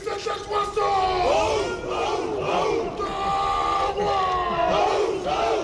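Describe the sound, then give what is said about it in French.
The handball team shouts its war cry together at the Élysée Palace, beneath the front steps. Loud, rhythmic group yelling swells and falls in repeated chant phrases, steady throughout. “c'était le cri de guerre des handballeurs sous le perron de l'Elysée.”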